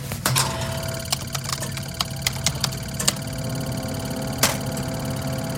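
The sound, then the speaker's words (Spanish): An old computer in a factory switching on and booting up: a steady mechanical whirring drone with scattered irregular clicks and ticks, one sharper click standing out near the end. “Ahora debo reiniciar los sistemas. Muy bien. Ahora solo falta encender nuevamente esta vieja computadora.”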